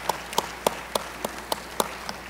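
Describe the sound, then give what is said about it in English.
Eight faint, evenly spaced hand claps from an audience at an American Council of the Blind gathering, crisp and regular, with quiet pauses between each clap. “Thank you all for that nice round of applause for both Yolanda and Vicki.”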